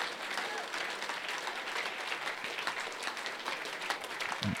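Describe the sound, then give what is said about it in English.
A church audience clapping hands together during a worship service, a dense, even wash of many hands applauding steadily without pause. “Come on, put your hands together prophetically, believing for what He's about to do.”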